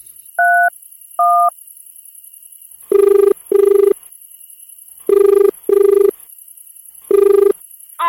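Telephone call being dialed: two short dual-tone keypad beeps, then a buzzing ringback tone in paired bursts that repeats several times after a pause, steady in pitch and fairly loud over a faint background hiss.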